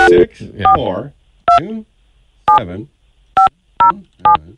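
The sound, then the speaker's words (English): Telephone keypad tones dialing an international call from Canada to New Zealand: a series of short, bright beeps at uneven intervals. Voices talk over the opening and between the presses. “6-4 is the international code used to dial New Zealand.”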